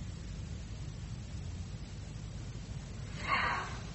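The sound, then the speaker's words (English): Breath is exhaled gently and then more forcefully: soft, airy breathing noise over a steady low rumble gives way near the end to a short, stronger puff of air. “And then when you're ready to exhale, you exhale a little bit in the beginning, and then it becomes more forceful. So if you watch me, it's a little like this.”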